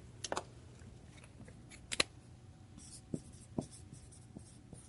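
A pen sketching a diagram on paper makes faint, quiet scratching strokes, broken by a few sharper taps and flicks at irregular intervals against a low background hiss.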